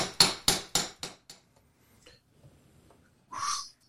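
A chisel is hammered against stone in five sharp, evenly spaced strikes that quickly grow fainter. After a pause comes a short, brighter, higher-pitched burst.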